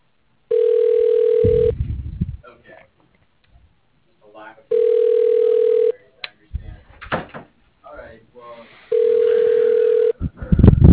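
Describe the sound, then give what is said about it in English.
Ringback tone of an unanswered phone call to a gym: three steady, even mid-pitched tone bursts spaced several seconds apart, with people talking in the gaps between rings. “it's just ringing. Yeah, I'm just gonna hang up.”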